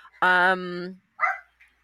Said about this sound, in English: that's just the sweetest little woof. Little dog.